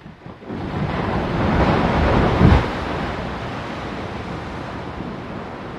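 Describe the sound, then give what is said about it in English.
Glaciers calving, ice breaking away into water: a broad, steady roar that swells through the first half, peaks in a low, heavy thump near the middle, then settles into an even rushing wash. “That is the sound of glaciers calving.”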